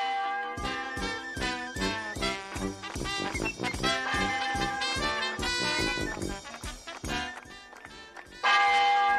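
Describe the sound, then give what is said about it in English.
Church bells ring out in a rapid, continuous peal of many overlapping strikes, with rich, shimmering tones and no voices. “Ring out the church bells.”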